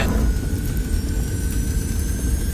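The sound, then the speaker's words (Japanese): A jet-like roar of thrust blasting from the underside of a modified bottle cap: a steady, loud, low rumble with a continuous whir above it that holds for the whole clip without any break. “この度私は自分に改造を加えキャップの裏からジェット噴射を出すことに成功した。行け、脱出。”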